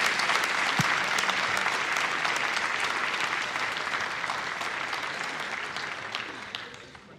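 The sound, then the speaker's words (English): A church audience applauding to welcome a visiting pastor, with dense, sustained clapping that fills the whole stretch and eases off slightly toward the end. “Would you open your hearts, put your hands together. Let's welcome Pastor Satish Roddy here this morning.”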